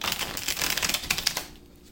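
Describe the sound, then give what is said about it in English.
Shuffling a tarot clarifying deck: a rapid, crisp run of papery card flicks and riffles, fairly loud and continuous, that tapers off and stops shortly before the end. “I'm going to use the clarifying deck. I need a card or some cards for Taurus”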